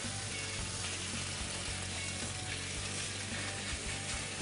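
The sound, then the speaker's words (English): A fish fillet sizzles in a hot pan of olive oil with spices, giving a steady, dense crackling hiss that stays even throughout, with no talk. “So let's get this fish on there. Okay. All right, so we got the pan nice and hot. Okay. I put olive oil spices on here. Olive oil face down.”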